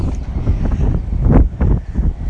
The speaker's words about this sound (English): It's quite windy here